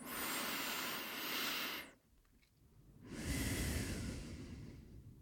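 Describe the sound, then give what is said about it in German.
Deep breathing during a guided breathing exercise, with a long, airy inhale followed by a short silence and then a long, slow exhale, soft and alone without talk. “Lass uns gemeinsam noch dreimal tief ein- und ausatmen.”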